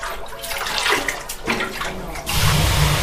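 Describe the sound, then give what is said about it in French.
Water splashing onto the hot stones of a traditional wood-panelled sauna stove in Helsinki gives a broad hissing, rushing wash that swells, dips and then surges louder near the end. “c'est de l'eau qui vient d'asperger les pierres brûlantes posées sur le poêle d'un sauna traditionnel appartenant à la société finlandaise de sauna d'Helsinki.”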